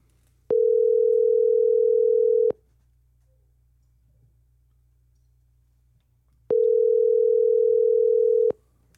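Ringback tone while calling someone: two long, steady, low-pitched tones, each lasting about two seconds, separated by roughly four seconds of near silence, with no voices.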